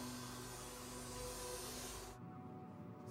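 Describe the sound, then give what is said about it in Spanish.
A vacuum cleaner runs faintly as police clean out a car interior to gather hairs and fibres. The steady whooshing hum cuts off abruptly about two seconds in, leaving near silence. “La policía toma varias prendas de ropa y limpia el interior con una aspiradora para hallar cabellos y fibras.”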